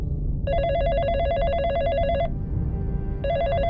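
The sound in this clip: A telephone ringing with a warbling electronic trill. Two rings come, a long burst and then a second that is cut off, loud over a low background hum.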